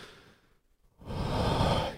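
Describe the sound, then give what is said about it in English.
A woman takes a big breath in and out: a soft inhale, a brief pause, then a longer, louder exhale like a sigh. “She thinks for a moment, big breath in and out.”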